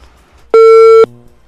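A single loud electronic telephone beep as a caller's line drops. It is one steady half-second tone with a bright overtone, alone over faint hiss.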